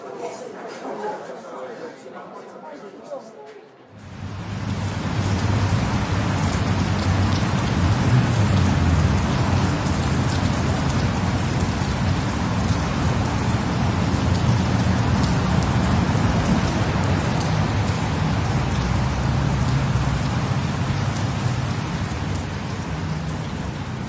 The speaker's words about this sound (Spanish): La lluvia matinal se había convertido con el ocaso en una ligera llovizna.